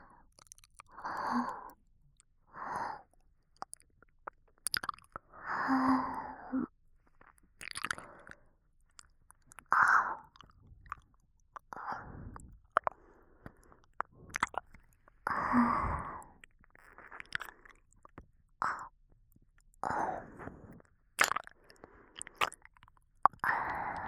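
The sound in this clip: Gentle ear biting and chewing: soft, wet nibbling and mouth sounds repeat many times at an unhurried pace, with breathy sighs in between, all close and quiet.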